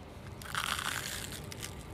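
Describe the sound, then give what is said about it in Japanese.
A crunching bite into a crispy fried minced-meat cutlet with garlic, slightly smaller than a palm: one short, dense burst of crackling crunch, alone without talk. “サックサクもうお肉のジューシーな肉汁がたっぷりでとっても美味しいですニンニクも効いてますね”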